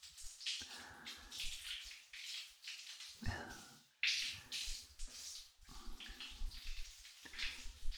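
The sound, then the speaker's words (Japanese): Water poured over a child in a bath to rinse them: faint, splashing, rushing bursts from repeated pours, with short pauses between them. “よしよし、一回流しちゃおうか。”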